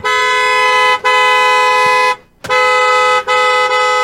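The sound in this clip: A taxi horn honks in loud, steady, multi-tone blares held for long stretches and broken by a few short gaps, with no voices over it.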